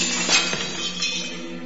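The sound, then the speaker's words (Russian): A glass figure falls and shatters, giving a burst of bright crashing glass followed by scattered, tinkling clinks of shards. “Стеклянный человек упал на землю и разбился.”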